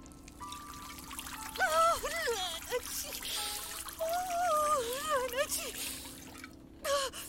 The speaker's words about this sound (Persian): خیلی خب، اون الکل ها درست سمت راست سوراخ بریز، همه شو روش خالی کن.